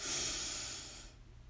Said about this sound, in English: Breathe in and out.